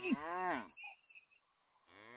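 A cow moos in a cow stable: one long, wavering low moo, then a quiet pause with faint rustling before a second moo begins at the very end.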